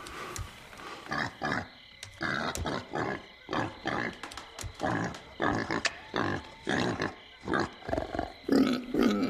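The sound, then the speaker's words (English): A pig sniffs at the front door of a cabin at night, making a long run of rhythmic, breathy snuffling bursts with rough grunting tones, many of them in quick succession. “he wakes up in his bed and finds the pig sniffing the front door.”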